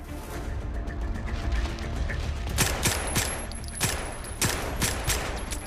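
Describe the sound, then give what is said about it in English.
Gunshots in a film shootout, fired from behind torn plastic curtains: several sharp, loud cracks in uneven succession over a constant low rumble. “Frank moves forward. Frank quickens his pace. He shoots. Baxter shoots from behind torn plastic curtains and retreats.”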